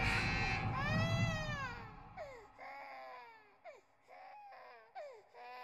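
A baby crying: one long rising-and-falling wail followed by several shorter, whimpering cries with bending pitch, fairly faint and with no other voices.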